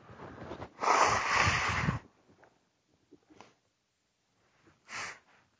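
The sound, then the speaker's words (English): Nose blowing heard as a long, loud burst of noisy air lasting about a second, followed by a few faint sniffs and a shorter second blow near the end. “Sorry, I have to blow my nose.”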